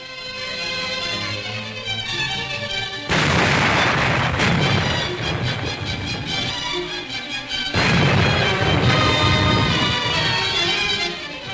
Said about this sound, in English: American Coast Guards, operating only a few hundred miles from the North Pole, yes, there's a war up there too, had to extricate their ship, which got caught in the ice. Depth charges helped to blast a way out.